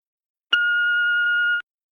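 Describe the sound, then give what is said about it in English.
A voicemail beep: one clean, steady electronic tone holding for about a second and cutting off abruptly, alone in silence. “Please don't hesitate to leave a message after the beep.”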